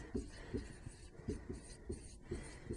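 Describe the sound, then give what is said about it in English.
Rhythmic rubbing strokes of an eraser wiping writing off a board, a steady run of many short scratchy swipes at a regular pace, fairly faint. “So for that reason, I'm going to erase this because it's not part of the problem at hand.”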